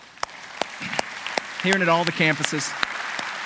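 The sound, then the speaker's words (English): An audience claps hands together at a steady, evenly spaced beat, with the sharp claps standing out clearly. A voice speaks over the clapping partway through. “I want you to do this with me. Would you just clap your hands with me?”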